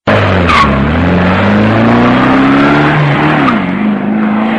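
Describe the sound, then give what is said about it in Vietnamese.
A taxi engine revs as the car pulls away from a roadside drop-off. The sound is loud and continuous, with the engine note climbing steadily in pitch before dipping near the end, over a rough layer of tire and road noise. “Taxi vừa chạy đi”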